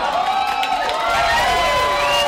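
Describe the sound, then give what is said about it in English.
Supporters cheering a Senate candidate at an election watch party in a restaurant, a loud burst of cheers, whoops and raised voices over a busy crowd roar that carries on without a break. “And when they got the news they were looking for, supporters cheered Norman as he came down the steps from a private watch party with his family.”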